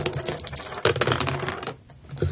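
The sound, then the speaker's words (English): Dice rolled on a table give a rapid, busy clatter of small hard clicks and rattles that runs for about two seconds, with a brief quieter gap before a final knock. “You want to roll the black dice?”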